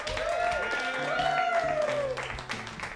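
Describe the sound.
An audience at a live improv comedy show claps to welcome five performers onto the stage. The applause is steady and dense, with a sustained cheering tone riding over it.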